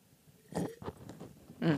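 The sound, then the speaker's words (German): Faint sipping of red wine, a few soft wet slurping and swallowing mouth sounds in short bursts, quiet against a hushed background. “Jetzt nehme ich nochmal einen Schluck Rotwein.”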